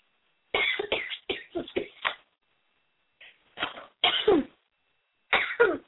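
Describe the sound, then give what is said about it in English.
Random coughing from a person comes as a quick run of several sharp coughs, then a short pause, then further clusters of coughs. “I don't know what causes the random coughing”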